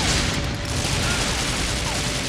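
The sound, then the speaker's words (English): Gunfire in a video game, a dense and continuous rattle of rapid shots that stays loud and even for the whole brief moment. “Oh, I'm getting shot at.”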